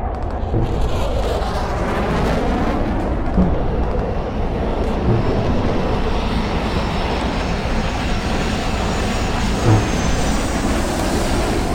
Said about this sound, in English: Look, the jets!